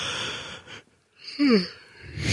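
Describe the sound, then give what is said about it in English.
A yawn comes out as a breathy vocal sigh that glides downward in pitch. It rises out of a brief near-silent lull and fades back into noise. “the obligatory yawn from that.”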